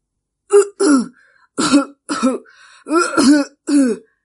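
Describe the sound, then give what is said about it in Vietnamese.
Coughing and throat clearing from a frail, pale, sickly older man: several loud, rough, voiced bursts come in a halting series with short pauses between them. “Sư đàn chủ ốm yếu ho mấy tiếng.”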